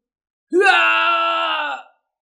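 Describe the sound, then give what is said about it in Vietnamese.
A man's long scream of pain as he is struck and torn apart: a single loud, sustained cry of about one and a half seconds, holding a steady pitch, then cut off. “Diệp Hàm thét dài, lại một lần nữa bị đánh nát người”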